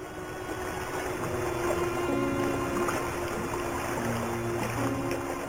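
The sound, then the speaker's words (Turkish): A ferry boat moving over water: a steady, even wash of rushing noise with low engine hums running underneath, continuous throughout. “Ah, şu vapur bir dursa.”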